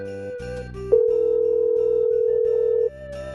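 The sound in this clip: A telephone ringing tone on an outgoing call: one steady, mid-pitched tone sustained for about two seconds, with faint background sounds before and after it.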